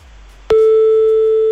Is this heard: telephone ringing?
yes

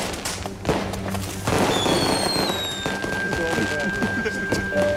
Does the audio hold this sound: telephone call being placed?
no

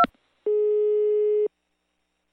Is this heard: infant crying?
no

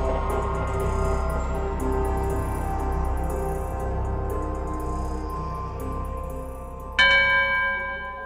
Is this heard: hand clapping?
no

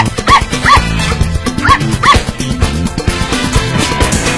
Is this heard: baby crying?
no

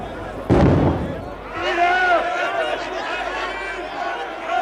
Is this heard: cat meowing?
no

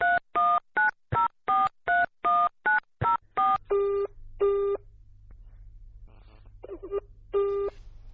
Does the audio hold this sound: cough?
no

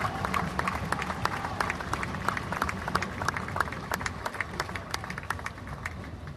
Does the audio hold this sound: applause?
yes

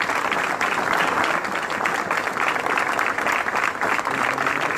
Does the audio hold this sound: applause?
yes

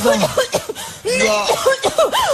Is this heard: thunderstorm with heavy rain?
no

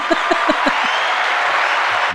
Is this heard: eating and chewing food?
no

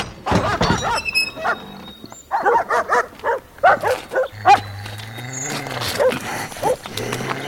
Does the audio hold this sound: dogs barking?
yes

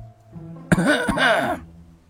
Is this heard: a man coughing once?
yes

